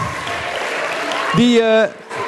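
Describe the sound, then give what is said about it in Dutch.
Audience applause at a Christmas event, cheering on Santa Claus and a group of ladies. Dense, continuous clapping gives way to a held, raised voice near the end, then drops off abruptly. “Dus allereerst voor de kerstman een groot applaus. Ja. Voor deze dames een groot applaus.”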